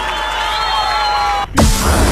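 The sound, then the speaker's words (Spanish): An audience breaks into loud applause and cheering after a steady tonal sound cuts off, the clapping and shouts bursting in suddenly near the end. “Las manos en el aire, aplauso para muchísimas gracias.”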